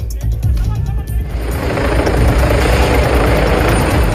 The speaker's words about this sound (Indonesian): Helikopter ambulans udara mendarat di Trafalgar Square, London